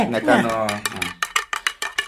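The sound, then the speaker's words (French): A spoon clinks against a pot while stirring ground coffee with sugar before heating, a quick run of sharp, light taps following a voice at the start. “Donc elle me donne l'ordre de le remuer, de le mettre sur le feu.”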